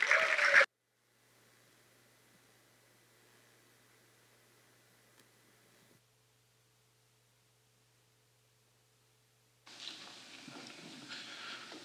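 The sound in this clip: Applause from a morning church audience welcoming a speaker, heard as a short burst at the start and another stretch of clapping near the end. Between them is near silence with only a faint hiss.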